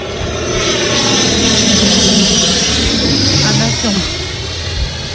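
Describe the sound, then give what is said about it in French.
An airplane roars loudly and steadily, a dense, broad engine rush that holds throughout and eases slightly near the end. “Alors, oui, c'est un avion.”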